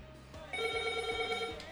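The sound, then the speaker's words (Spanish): A telephone rings with an incoming call: a steady, bright electronic tone with strong harmonics starts about a third of the way in and sounds alone to the end. “Tenemos una llamada.”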